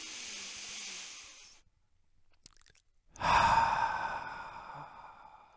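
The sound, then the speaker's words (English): One deliberate deep breath: a long, soft, hissing inhale, a pause of near silence, then a louder, airy exhale that slowly trails away. “take a deep breath, and appreciate everything that's around you. Breath is the gift of life. I don't practice it enough, so I'm going to practice it right now.”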